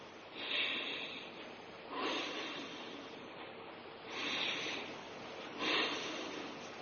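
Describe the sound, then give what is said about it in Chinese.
Forceful breathing in and out through the nose, with teeth apart and tongue raised, done as a cold-prevention exercise: four loud, breathy, hissing bursts spaced a second or more apart, each swelling and fading, with no talk. “牙齿打开，舌头悬起，用鼻子进行强力的吸入和强力的吐出。我做一遍大家看。”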